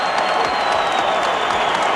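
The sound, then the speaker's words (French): A standing ovation from an athletics stadium crowd cheering a medal: a loud, dense, unbroken roar of applause and crowd noise that holds steady throughout. “Une ovation monstre. Les gens sont debout, mesdames et messieurs.”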